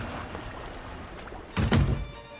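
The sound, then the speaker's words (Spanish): A door shuts with a single short, heavy thunk in the command cabin of a listing ship whose bridge is flooded waist-deep, the blow standing out briefly above a low, steady background. “Entra en su cabina de mando y cierra la puerta.”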